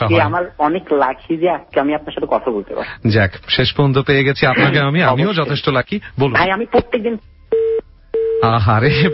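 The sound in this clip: On a radio call-in, the phone line cuts off and a disconnected-line tone sounds as two short, steady beeps, heard alone between stretches of talk.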